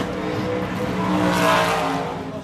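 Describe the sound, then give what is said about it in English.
A race car engine is held at about 2,000 RPM, giving a loud, steady, rumbling drone that swells slightly midway and continues without a break, with no talk over it. “So what you're going to do is hold that gas pedal at 2,000 RPMs.”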